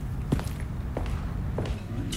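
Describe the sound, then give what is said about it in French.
Footsteps quietly climb the front steps of a house. A few soft, evenly spaced treads sound over a low, steady background rumble. “Il fait attention pour ne pas faire trop de bruit. Monte le perron. La maison est silencieuse.”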